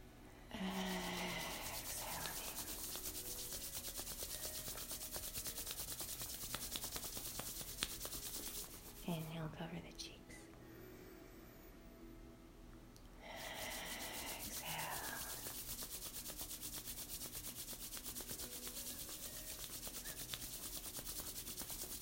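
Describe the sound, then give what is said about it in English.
Hands rubbed together to warm them: a steady, dry rubbing hiss that runs on continuously, breaks off for a few seconds partway through, then resumes with the same even texture. “As we rub our hands nice and warm.”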